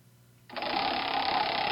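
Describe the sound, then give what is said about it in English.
A prize wheel is spun: after a brief quiet moment, a steady rapid whirring rattle starts abruptly and keeps going at an even level to the end. “so I'm going to spin that wheel. Here we go.”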